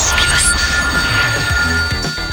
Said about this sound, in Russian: В эфире Европы Плюс, программа «Большой куш», и у меня есть телефонный звонок